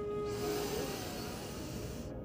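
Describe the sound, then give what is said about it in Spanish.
A person takes a slow, deep inhale during a guided breathing exercise, a soft, airy hiss that swells in and holds for about two seconds over a faint sustained tone. “Inhala.”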